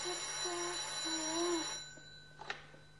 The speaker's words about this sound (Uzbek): hozir men telefonni olaymi?